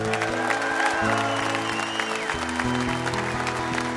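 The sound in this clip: An audience applauds to welcome a performer onto a live music stage. The clapping is full and sustained, with low, steady tones humming beneath it.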